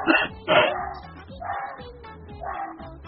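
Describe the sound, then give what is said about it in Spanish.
A dog keeps barking in a few short, repeated barks, moderately loud and evenly spaced. “es que no para de ladrar”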